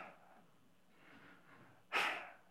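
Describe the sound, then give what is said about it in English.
A person imitates a dismissive snort: a single short, sharp nasal burst following soft breathy sounds. “there are those times where you kind of get the snort,”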